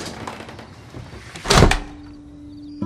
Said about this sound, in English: He shuts the door.